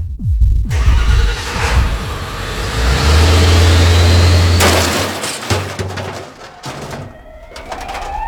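A car engine revs as a drunk man drives off, rising to a loud, sustained roar in the middle before settling back, while pigeons coo throughout.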